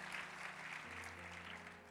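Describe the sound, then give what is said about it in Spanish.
Church audience applause honoring the word of God: a soft, steady patter of clapping that continues without a break, with sustained low keyboard tones held underneath. “Y bueno, un aplauso a la palabra de Dios, a su presencia.”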